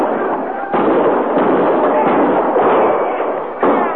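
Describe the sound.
Guns firing at range: a few sharp reports stand out against a dense, loud crackle of shooting that runs without pause.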